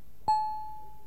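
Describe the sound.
A doorbell chime rings at a front door: one clear, bright struck tone that sounds once and then slowly fades away over quiet background.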